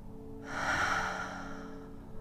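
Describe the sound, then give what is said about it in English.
One slow, deep breath drawn and released, heard as a soft, airy hiss that swells and fades over about a second and a half. It is quiet and stands alone, with no talking. “He takes a deep breath in and out,”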